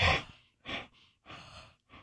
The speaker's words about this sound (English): See if you have bad breath. Blow into your hand, cup your hand.